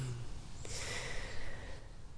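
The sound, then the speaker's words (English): A slow, steady exhale of breath during a guided yoga breathing exercise, a soft continuous rush of air lasting about two seconds, with no talking. “taking a few slow breaths like this with your eyes closed, your hands still.”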